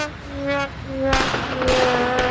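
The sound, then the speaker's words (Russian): Fireworks sound effect: three sharp, loud crackling bangs burst out in quick succession in the second half, following a stretch of softer steady tones. “Нет, я фейерверк пущу.”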